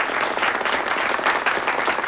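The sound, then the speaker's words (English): Audience applause for a pianist rising from the piano at a Soviet friendship society gathering: dense, loud, steady clapping from many hands with no break. “A man with thinning hair leads applause for David as he stands up from a piano.”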